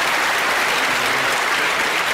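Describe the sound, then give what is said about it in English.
Audience applause welcoming a guest onto a show, dense, steady clapping that stays loud throughout. “let's give a big hand to Daniel DeFranco.”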